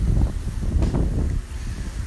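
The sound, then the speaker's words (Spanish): Wind buffets palm tree branches and strikes the microphone, making a steady low rumbling roar with gusty swells throughout. No one speaks. “el viento pegando en las ramas de las palmeras. El viento pegando quizás también en el micrófono.”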